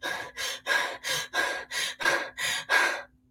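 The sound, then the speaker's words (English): Agitated breathing demonstrated by a person: nine rapid, forceful breaths in an even, quick rhythm, each a loud, breathy rush of air, with no talk. “So if I'm standing here in front of you and I'm breathing like this,”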